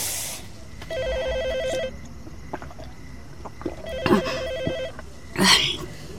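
A telephone rings with a warbling electronic tone in two separate bursts, with scattered clatter and hiss between and after them.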